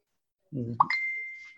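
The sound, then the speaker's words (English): A phone notification goes off as a single short alert: a brief low tone jumps to a bright ding, then a thin, high ping rings on for under a second. “I got notifications going off.”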